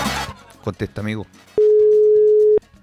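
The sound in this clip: A phone line's ringback tone sounds while a caller waits for an answer: a single steady, mid-pitched tone lasting about a second, following brief talk.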